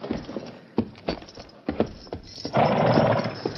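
Horse hooves clop a few times in an uneven rhythm as a rider sets off from near a low bluff by the shore, followed by a loud, sustained whinny.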